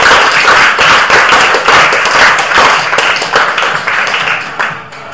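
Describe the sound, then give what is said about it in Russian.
A group applauding themselves during a training session, loud quick claps that keep going and then fade near the end. “Ну что, аплодисменты себе.”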